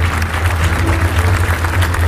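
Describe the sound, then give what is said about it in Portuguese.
Applause from an audience at a worship service, a dense, even patter of clapping that holds steady throughout, fairly loud, with a strong low hum beneath. “Lógico, vamos aplaudir o Senhor Jesus.”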